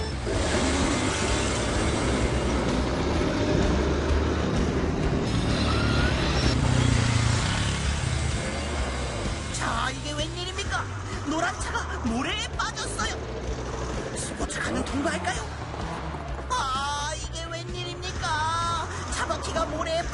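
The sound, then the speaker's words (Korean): A tank rumbles past while another vehicle's wheels spin in place, producing heavy, continuous engine and track noise with grinding, whirring textures. A voice talks over the later part. “바퀴만 돌고 있네요. 하지만 탱크는 늠름한 모습으로 옆을 지나가고 있습니다.”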